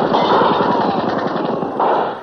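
Gunfire in a staged police shootout with an armed man: a loud, dense rattle of rapid shots that runs continuously for about two seconds.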